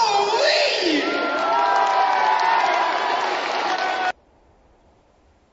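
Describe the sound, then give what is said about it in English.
A loud crowd cheering and applauding, a dense, steady roar with scattered shouts and whoops. It holds for about four seconds, then cuts off abruptly. “As you could hear, we had quite a few Bo-leavers in the crowd.”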